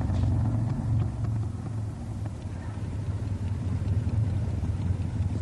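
A motorcycle engine runs with a steady, low, throbbing rumble that holds at an even loudness for the whole stretch, with no talk.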